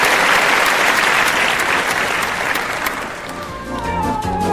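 Sustained crowd applause in memory of a late 1960s pop singer, loud and dense for several seconds. It eases slightly toward the end as music with held tones comes in underneath.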